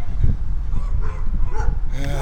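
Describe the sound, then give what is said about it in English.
Dogs at a house barking and yelping in a few short, tonal bursts over a loud, steady rumbling background. “Dogs. Hey, those are new dogs for that house.”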